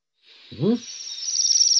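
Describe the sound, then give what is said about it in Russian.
Waxwing calls: a thin, high, buzzy trill that runs on without a break and grows slightly louder toward the end. “покажи, дайте послушать, пожалуйста, как кричат наши свиристели, чтобы ребята разницу почувствовали.”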